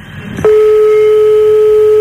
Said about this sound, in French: Ne t'inquiète pas si ça sonne longtemps, hein. C'est normal